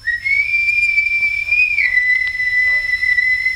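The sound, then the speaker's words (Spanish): A single long whistle sounds in the distance near muddy vacant lots. The clear, high, steady tone dips slightly lower partway through and holds to the end. “oí a lo lejos el famoso silbido”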